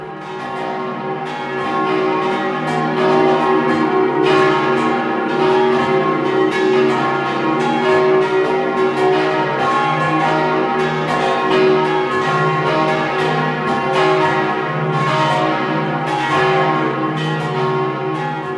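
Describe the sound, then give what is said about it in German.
The bells of a basilica in Rankweil, Vorarlberg, ring in a full, sustained peal, several bells overlapping in a steady, resonant wash of strokes that continues throughout. “Sie hören das Geläute der Basilika Maria Heimsuchung in Rankweil in Vorarlberg.”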